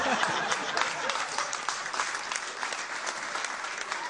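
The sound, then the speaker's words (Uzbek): Steady applause congratulating a man on the birth of his son: dense, continuous clapping from a crowd at an even level throughout. “Tabriklaymiz, tabriklaymiz. Qarsaklar.”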